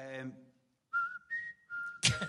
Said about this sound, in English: We just happened to fucking whistle that tune. We're waiting for a lift, and he went.